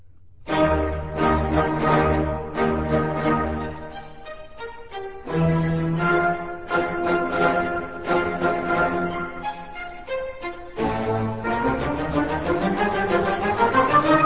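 The opening of a symphony's first-movement allegro for winds, bassoons, horns, trumpets and strings. Emphatic, marked orchestral phrases move through loud chordal bursts, with brief pauses between them and no voices.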